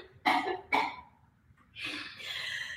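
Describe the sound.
Coughing from someone choking on a sip of water during a live chat show: two sharp, loud coughs in quick succession, followed by a longer, breathy rasp.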